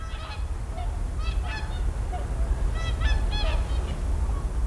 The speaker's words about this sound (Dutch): En daar komen inderdaad de eerste wilde zwanen binnen. Ja, ze zijn laat.